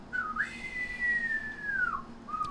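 A high-pitched whistle looping in a song holds one long, gliding tone that rises slightly and then falls, followed by a brief shorter note. It sounds fairly faint and clean, with no voices.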